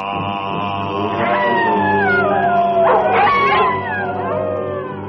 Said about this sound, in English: While the wolf in nightly prowl bays the moon with hideous howl.